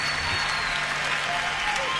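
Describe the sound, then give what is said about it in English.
Audience applause after a live jazz-blues fusion performance, a thick, unbroken wash of clapping at a steady, even loudness throughout. “I should have just left the applause going.”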